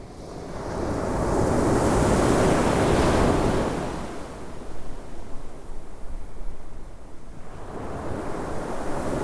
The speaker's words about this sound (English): I've reached Blackpool Sands and the wind is seriously blustery.